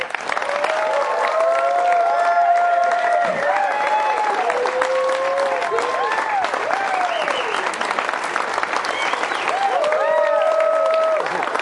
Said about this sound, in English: Yeah, we had a standing O going on.